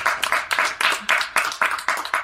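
A small live audience at a Halloween show claps enthusiastically, in uneven bursts of hand claps that rise and drop in quick succession for a couple of seconds.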